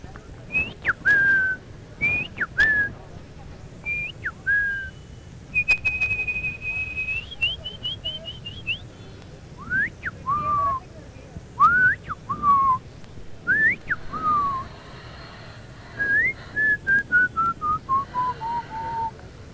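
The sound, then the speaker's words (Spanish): Human whistling at the Plaza de Caicedo: many short whistled phrases with sliding, swooping notes, some rising and some falling, repeated in bursts over a steady low background murmur. “Perfecto el silbido.”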